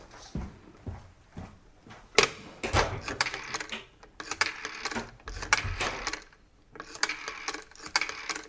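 A telephone number is dialed, heard as bursts of mechanical clicking and ratcheting whir. Several runs are separated by short pauses, with a low background hum between them.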